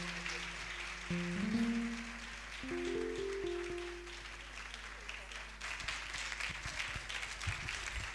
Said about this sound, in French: Acclamez les enfants, ils sont timides.